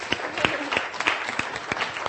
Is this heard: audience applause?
yes